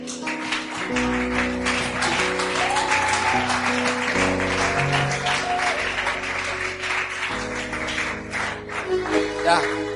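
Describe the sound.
A church audience applauds and cheers, with brisk, continuous clapping and raised voices throughout.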